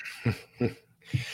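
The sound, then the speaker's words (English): Three short, moderately loud coughs in an evenly spaced series, from a person who has had a cough for a couple of days. Each cough is a husky burst, with brief quiet between them. “Excuse me. I've had a cough the last couple of days.”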